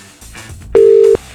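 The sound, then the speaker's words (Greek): A single loud, steady, mid-pitched beep plays as a rejected phone call goes to voicemail. Faint background noise comes before it. “Σου πάτησε απόρριψη. Για να βγει τηλεφωνητή.”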